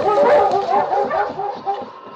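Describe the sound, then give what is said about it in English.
A large harnessed sled dog on a forest trail barks and yelps in a rapid, continuous string of loud, tonal yips with a whining edge. “Since they were following a broken trail, King had been harnessed, and the great dog set a fast pace.”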